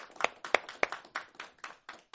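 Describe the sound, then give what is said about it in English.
Applause from an audience after a lunchtime classical music performance, a sparse scattering of distinct claps that comes in separate bursts and gradually thins out and softens. “Let's give them one more round of applause.”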